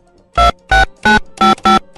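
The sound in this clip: Loud, buzzy telephone ringing on an outgoing call to a listener: five evenly spaced short ring bursts in a regular rhythm, with another just starting at the end, and silence between them.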